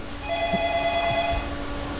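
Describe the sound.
A telephone rings with an incoming call, a steady electronic tone heard over a hissy background for the full two seconds.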